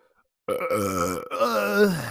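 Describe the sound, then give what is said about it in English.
A loud, drawn-out burp with a deep, voiced, rumbling tone. It starts abruptly after a moment of silence, dips briefly midway, then carries on to the end. “why do I always burp on the podcast?”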